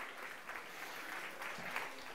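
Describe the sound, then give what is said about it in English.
Audience applause: a faint, even patter of many hands clapping, continuous across the short stretch without clear peaks or a pause. “Everyone give a round of applause.”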